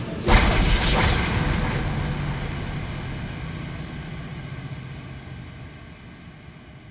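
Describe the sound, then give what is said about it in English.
A Hellfire torpedo launches with a sudden loud whooshing blast in the first half-second, then a broad roaring rumble that slowly fades over several seconds. “Do we have another Hellfire torpedo loaded? Armed and about to fire, sir. Shall I hold? Negative. Let's do it again.”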